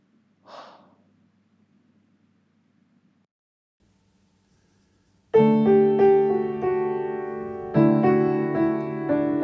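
A person breathes out once in a short, soft, breathy exhale. After a quiet pause, sustained harmonious music tones begin loudly.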